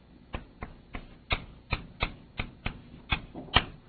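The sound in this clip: Writing during a physics lecture gives a quick, fairly regular series of sharp taps and clicks, with no voices.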